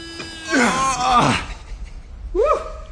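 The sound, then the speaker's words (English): Voices imitate the strain of climbing with effortful groans and gasps: a couple of long, strained vocal bursts, then a short rising grunt near the end. “Can you do a bit of sound of strenuous activity? We're both climbing, mate.”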